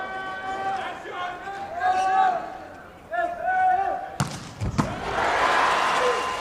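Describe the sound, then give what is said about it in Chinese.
A volleyball serve in a match between Iran and Japan: a sharp slap of the ball, then a second thump, under steady commentary and a swelling crowd. “加菲尤斗的发球，”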